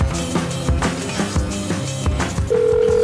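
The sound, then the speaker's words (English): A steady telephone dial tone comes in during the last half-second, sounding loud and even over a busy, rhythmic background of other sound. “It takes me a little longer to dial these newspaper ones because I can't just copy paste them like a normal.”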